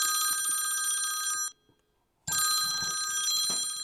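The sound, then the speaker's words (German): A telephone rings with an incoming call. It sounds as two long, bright, trilling bursts with a short silence between them. “Schon wenige Tage später kommt ein Anruf.”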